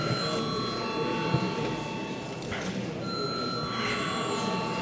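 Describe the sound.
An electric bell rings in a parliament chamber before a vote on a bill, a steady, shrill ringing buzz that holds at an even level without a break.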